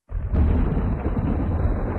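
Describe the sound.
A spring thunderclap breaks in with a sudden loud onset, then rolls on as a deep, steady rumble that holds strong for the rest of the two seconds.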